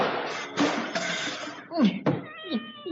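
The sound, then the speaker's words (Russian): A clock with a pendulum crashing to the floor along with a meowing cat: a noisy clattering crash first, then several wavering meows that bend up and down in pitch. “и маятник, и часы, и нарисованная кошка с ужасным грохотом и мяуканьем упали на пол.”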